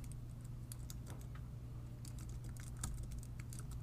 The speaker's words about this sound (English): Can hear you type.